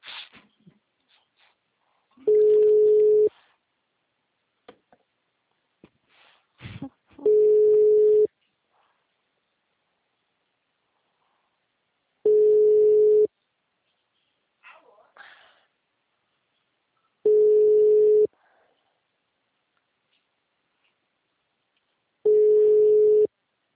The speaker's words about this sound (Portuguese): Bota pra tocar. O número está ocupado.